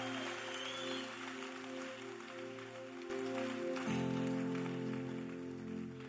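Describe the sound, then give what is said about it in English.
A church audience claps in praise at a conference, a dense, steady patter of applause running throughout over sustained music chords that shift partway through. “Give the Lord a mighty clap offering. Dieu vous bénisse. Acclamez très fort le Seigneur.”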